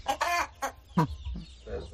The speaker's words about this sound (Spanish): a este granjero, escuchadle pasando lista a su gallinero.